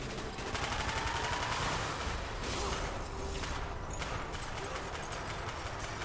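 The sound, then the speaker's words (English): Dense gunfire in a military shooter video game during a squad firefight, a continuous, crackling barrage of overlapping shots that blurs into a rough, noisy roar for several seconds. “Gunfire's drawing attention.”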